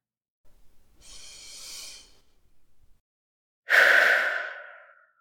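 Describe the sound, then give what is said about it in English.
Slow, deep breathing as part of a relaxation exercise for dropping the shoulders: a soft, long breath in, a pause, then a louder, airy exhale that gradually trails away. “and when you exhale, relax your shoulders. Let them just fall down to the side.”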